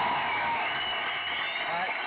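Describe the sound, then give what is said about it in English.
Audience applause and cheering at a stand-up comedy show, a dense, continuous wash of clapping mixed with crowd voices that stays loud and even for the whole moment. “Give yourself a round of applause for being 100. Yeah, I gotta give myself a round of applause for being 100.”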